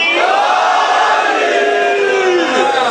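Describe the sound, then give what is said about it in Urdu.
A crowd at a religious gathering roars the Nara-e-Haidari slogan: many voices shouting together, loud and sustained, with sliding pitch in the massed cry. “دونوں ہاتھوں کو بلند کر کے لگا دیں نعرہ حیدری۔”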